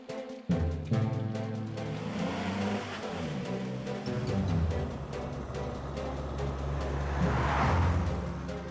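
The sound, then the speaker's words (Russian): A car drives across a city bridge: a steady, low engine hum with a rough rumble, starting abruptly after a short moment and continuing evenly at moderate loudness to the end, with no voices. “Машина ехала по Нюдек-брюхе.”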